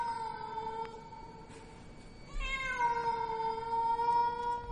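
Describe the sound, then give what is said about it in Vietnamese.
A cat meows loudly outside a window in long, drawn-out wailing calls. A steady, held cry shifts midway into a louder, more strained yowl that carries on to the end, with no other sounds. “Tự nhiên, ở bên ngoài, có cái con mèo nó kêu vang từ cửa sổ.”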